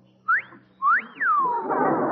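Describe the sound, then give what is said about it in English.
A boatswain's pipe sounded aboard a naval ship: two high whistle calls, each rising and then falling in pitch, the second longer and gliding down, followed by a broad hiss. “Pipe the wave. Hey, you're supposed to whistle. You're supposed to use a whistle.”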